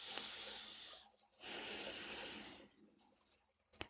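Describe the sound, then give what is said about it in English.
A person breathing out fully during a guided breathing exercise: a long, steady, airy exhale of about a second, with softer breath noise before and after, fairly faint overall. “So let's exhale fully to the count of five.”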